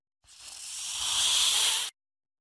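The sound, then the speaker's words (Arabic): Snakes crawl with a single breathy hiss that swells gradually in loudness for under two seconds and then cuts off abruptly. “سبعة ثعابين تزحف، ولكن أين القطة؟”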